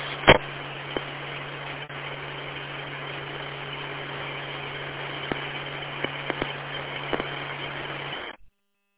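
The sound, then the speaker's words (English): Steady low engine hum fills the interior of a car, opening with a sharp click and carrying a few faint ticks before cutting off abruptly. “Now, I'm here in the car.”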